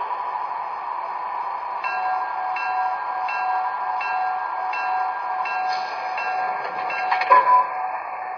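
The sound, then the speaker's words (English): The Transcontinental Limited train arrives from Boston on track one at Salt Lake City with a steady, tonal hum. Faint rhythmic clicks run through it, and a brief louder metallic clank sounds near the end. “Now arriving from Boston on track one, the Transcontinental Limited.”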